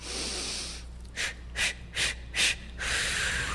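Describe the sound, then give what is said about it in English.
Four short, forceful breaths puff out in a steady rhythm during a Lamaze breathing demonstration, each a brief breathy burst, set against a constant soft hiss. “Lamaze. It's what I used. You learn to breathe. Like this. Watch.”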